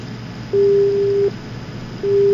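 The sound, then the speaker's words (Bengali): A busy tone on a telephone line during a phone-in call that fails to connect: steady mid-pitched beeps, one full tone and the start of a second, over a faint hiss. “না phone আসছে কিন্তু কথা বলাটা হচ্ছে না।”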